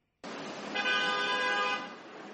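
A car horn sounds in New York street traffic during the UN General Assembly, when the streets are jammed. A sustained, steady horn blast of about a second rises over a continuous roar of traffic, which carries on after the horn stops.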